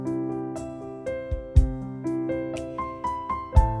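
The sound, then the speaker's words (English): A short keyboard passage on a Clavinova with the accompaniment switched off, leaving only a drum pattern behind the melody: sustained notes punctuated by a few thumping low beats. “I'm going to turn off the accompaniment feature, and this time I'm going to play the same little passage of music. However, I'm just going to turn on the drums only. Okay, so it sounds like this.”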